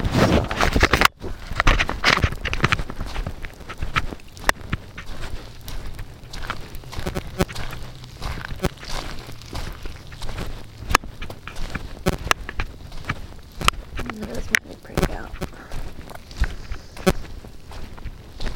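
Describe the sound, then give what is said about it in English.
Footsteps walking outdoors away from a tent in the morning after heavy overnight rain, forming a steady run of many crunching, scuffing steps with occasional sharper knocks. The steps stay moderately loud throughout. “Still walking back, well, leaving my tent in the morning.”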